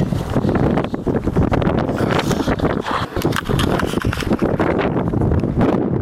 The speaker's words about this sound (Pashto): سیمه ټوله باد او دوړو پر سر اخیستې ده.